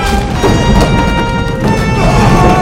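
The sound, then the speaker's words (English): Rolling barrels crash into a large metal tank on a platform, making a loud, continuous heavy rumble and clatter with no separate distinct hits. “The barrels bang into the tank, cracking the metal. The platform rumbles.”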